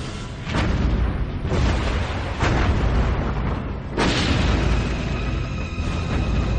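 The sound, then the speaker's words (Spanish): Heavy naval gunfire from a World War II battleship's 406 mm and 127 mm guns firing rapid salvos at Japanese cruisers and destroyers: several sharp booms over a continuous loud rumble. “disparando rápidas andanadas con los cañones de 406 y 127 milímetros”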